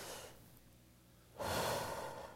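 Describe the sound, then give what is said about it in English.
A group breathing in unison, with a breathy rush at the start and then a quieter pause, followed by a long, loud, shared exhale that gradually tapers. “So everybody take a big inhale, exhale with me.”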